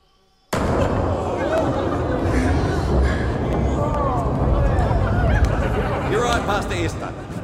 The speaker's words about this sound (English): There's the bomb. There's the smoke and stuff. But do you know, you see that wave move across, and right before you hear the sound, you actually see the shadow come over,